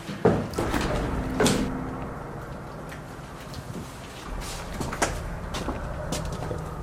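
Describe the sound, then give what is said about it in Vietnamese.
A door closes inside an old winery building, with a few sharp knocks and thuds standing out over a steady low rumble and no talking. “Đóng cửa rồi, đi.”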